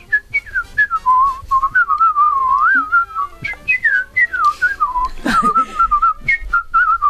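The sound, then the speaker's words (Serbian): A man whistles a tune in a clear, wavering melody of many quick notes with slides and trills. It stays loud and nearly continuous, with brief breaths between phrases and a short noisy burst near the middle. “Pa ali ja mogu ozbiljno da zviždim. Ozbiljno zviždi.”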